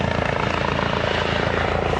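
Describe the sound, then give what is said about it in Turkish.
A Turkish-made Gökbey helicopter, a domestic model entering Health Ministry emergency service, flies with a loud, continuous rotor whir. A fast, even thumping pulse runs through it from start to finish. “Sağlık Bakanlığı Yerli ve Milli Helikopter Gökbey'in heyecanını yaşıyor.”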